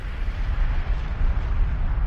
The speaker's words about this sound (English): Some of the water came from volcanoes blasting out steam.